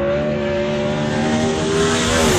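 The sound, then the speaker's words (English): Loud, sustained engine roar from 410 sprint cars racing on a dirt speedway track, a dense steady drone with only slight shifts in pitch over the whole clip. “King of the West 410 Sprint Car Series kicks off the fastest 5 days road trip to Dirt Cup Thursday night at Southern Oregon Speedway, presented by Bi-Mart, along with the Northwest Focus Midgets.”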